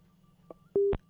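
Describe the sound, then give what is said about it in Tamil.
A listener's phone call cuts off with telephone line tones: three short electronic beeps, the last two bridged by a brief steady tone, over a faint low hum. “என்னாச்சு, என்னதான் ஆச்சு? வணக்கம், என்னங்க வரவங்கலாம் மாத்தி மாத்தி, வணக்கம் வரவங்களாம் இப்படி cut பண்ணிக்கிட்டே போகிறாங்க.”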